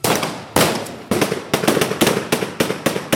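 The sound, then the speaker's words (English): Heavy gunfire from several guns fired into the air to break up a protest: a string of many loud, sharp cracks, each with a short decaying tail, coming at irregular, fairly quick intervals throughout. “Taliban security forces dispersed the protest after a few minutes by firing in the air. And this is what that sounded like. And you will hear the sound of bullets here.”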